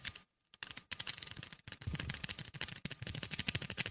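Trigger of a paintball gun set to ultra rapid fire: many fast, sharp clicks in dense bursts, with a brief silent gap near the start before the rattle resumes.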